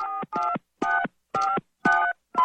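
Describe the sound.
Telephone keypad dialing: six short touch-tone beeps in an even, quick rhythm with brief gaps between them, the last one cut off.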